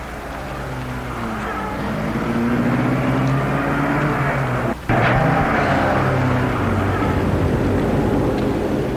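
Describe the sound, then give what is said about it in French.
A taxi's engine pulls away on a street at night. A low, steady drone grows louder over the first few seconds, breaks off briefly midway, then carries on evenly to the end. “Une fois dans la rue, un taxi l'attend. Elle entre, elle donne l'adresse. Le taxi démarre.”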